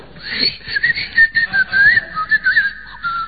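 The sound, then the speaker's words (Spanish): An oven cleaner aerosol sprays into a hot oven, producing a high, whistling hiss that pulses in several short bursts of varying loudness. “No, señores, es el aerosol del limpiahorno.”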